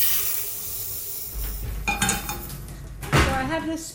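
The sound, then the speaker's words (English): Clinking and scraping of kitchenware as sugar is measured for a hygge recipe in a Copenhagen kitchen, with a steady low hiss underneath and a few sharper knocks and clatters toward the end. “Okay, so I'm measuring some sugar.”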